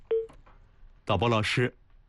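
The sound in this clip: A single short telephone keypad tone as a listener's call is put through on a live call-in program, followed after a pause by a brief spoken voice.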